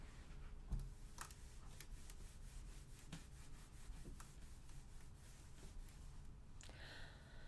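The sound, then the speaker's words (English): A pen drawing a diagram makes a faint, scratchy rubbing, with steady stroking texture broken by a few sharper ticks, heard alone without talk. “I'm going to draw a diagram to show you.”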